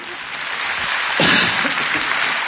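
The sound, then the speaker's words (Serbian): Applause from the audience at an award ceremony honoring a popular singer, a dense, steady wash of clapping that swells briefly near the middle. “Hvala puno. Hvala na aplauzu, znam da je od srca.”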